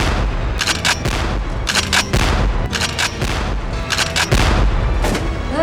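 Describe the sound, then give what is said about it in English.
Heavy gunfire: many rapid, loud shots and booms overlapping in a dense, continuous barrage over a deep rumble, with no pause throughout. “He's shooting!”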